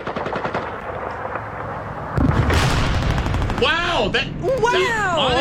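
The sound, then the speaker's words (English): World War II battle sound effect: rapid machine-gun bursts rattle continuously, then a heavier barrage with booms takes over, joined near the end by wavering tonal whines above the gunfire. “There's actually World War II sound effects. Hold on. There's one.”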